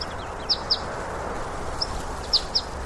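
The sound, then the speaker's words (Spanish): Short high chirps from a European greenfinch: two quick calls, a single one, then two more, faint over a steady background hiss. “¿Es el que canta? ¿Es un ruiseñor? No, no es un ruiseñor, es un verdún.”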